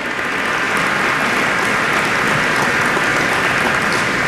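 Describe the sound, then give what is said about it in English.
An audience applauds at a community summit, recognizing the crews building a high-speed fiber network. Dense, even clapping holds steady and loud throughout. “Can we hear a hand for the folks that behind the scenes that are working on this stuff?”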